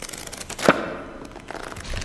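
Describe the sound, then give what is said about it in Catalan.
A page of a book turns in a medieval monastery setting, with one sharp papery crackle standing out above a soft rustling hiss that fades and rises again. “Per què es mou el full del llibre?”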